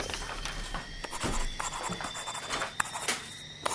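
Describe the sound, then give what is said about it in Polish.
Quiet, scratchy rubbing strokes of a sketch being coloured by hand, irregular back-and-forth scraping with a few sharper ticks near the end. “Spróbuję pokolorować nowy szkic.”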